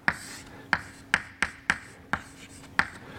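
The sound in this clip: Writing on a board during a lecture: seven sharp, crisp taps at uneven intervals, each fading quickly, with faint scratchy strokes between them and no talk.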